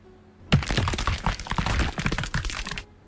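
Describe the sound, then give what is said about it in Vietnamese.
Sharp cracking of a fissure splitting open, a dense burst of crunchy, splintering cracks and snaps that starts abruptly and rattles on for over two seconds before cutting off, heard alone. “Những tiếng răng rắc vang lên”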